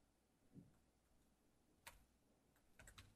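Faint computer keyboard typing as a heading is entered into a website builder, a few isolated key taps and then a quick little cluster near the end.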